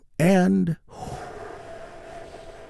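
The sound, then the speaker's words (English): A deep breath drawn in and released slowly during a guided relaxation exercise. A brief voiced sound comes first, followed by a long, soft, airy exhale that stays steady to the end. “Let's take another big, deep, healing breath together. Here we go.”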